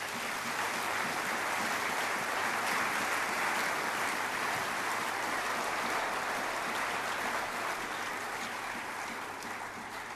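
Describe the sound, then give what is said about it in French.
Church audience applauding: a dense, steady wash of clapping from many hands runs unbroken for about ten seconds and eases slightly at the very end. “Nous allons acclamer la parole de Dieu.”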